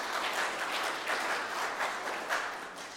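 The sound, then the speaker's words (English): Audience applause welcoming a speaker to the stage at a leaders' gathering, a steady patter of many hands clapping at moderate loudness with no voices over it. “I'm really going to get you to put your hands together as we welcome Mark here as he comes and shares with us”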